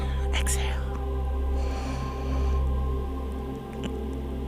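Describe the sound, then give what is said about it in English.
A deep breath drawn in during a guided meditation, soft breathy airflow rising in a couple of noisy swells over a steady low musical drone. “Let's take some nice deep inhales and exhales. Inhale,”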